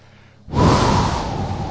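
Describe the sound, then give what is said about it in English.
A person breathes out slowly during a seated relaxation exercise: a short silence, then one long, soft, airy exhalation that holds steady and eases off slightly toward the end. “take a breath in and hold that breath for just a couple of seconds and let that air out.”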